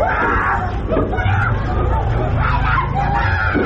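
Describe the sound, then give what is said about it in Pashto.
Hubbub of children and youths crowding Eid fairs along city streets in Balochistan: a dense, steady babble of many voices that stays at an even level throughout. “خو د ښار په بیلابیلو سړکانو باندې په غټو او وړو میلو کې د ماشومانو او ځوانانو ګڼه ګوڼه روانه ده.”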